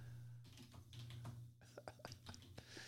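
Typing a search on a computer keyboard: quiet, irregular keystroke clicks that quicken into a rapid run in the second half, over a low hum.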